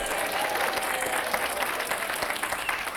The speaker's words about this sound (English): if nothing else, at least applause for the applause sign